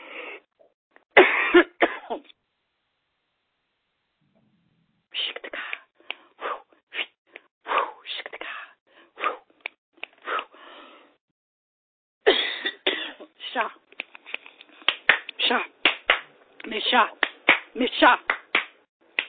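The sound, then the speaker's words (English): Repeated coughing from one person, many harsh coughs in clusters separated by short silent pauses, with some throat clearing between bursts. “So I'm sorry that I'm coughing”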